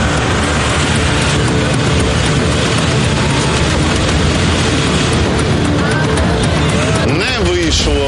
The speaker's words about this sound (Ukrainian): Взяв розгін, але, на жаль, не пройшов. Занадто круто. Зараз буде третя спроба. Поїхав!